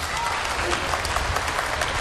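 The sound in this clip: Audience applause at a Chinese comic crosstalk performance, with the crowd clapping on cue for a performer to recite his poem. The clapping is dense, steady and fairly loud, filling the whole two seconds without a break.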